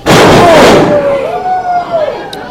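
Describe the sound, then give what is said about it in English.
A wrestler slams onto the ring mat from a sidewalk slam: one loud, booming impact at the very start that fades into a sustained, roaring wash of noise for the rest of the moment. “That was a big sidewalk slam. That was a huge sidewalk slam, but did not keep St. Pierre down.”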